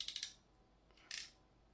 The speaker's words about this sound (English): And as you can see, the pass-through connector ends are sticking out. Let's go ahead and snip those off.